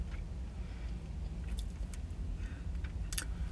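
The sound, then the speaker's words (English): Keys jangling inside a car: a few brief, bright metallic clinks rise over a steady, low engine and road rumble, with the loudest shimmer near the end. “plus the ringing of my keys”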